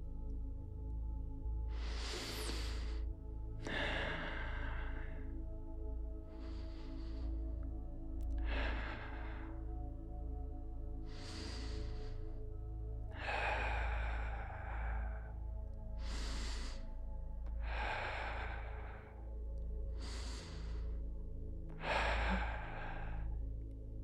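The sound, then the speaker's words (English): A group takes slow, deep breaths together during a guided chakra grounding meditation: evenly paced, breathy inhales and long exhales repeat across the stretch, faint and steady, with no talking between them. “Let's take 5 more deep breaths together.”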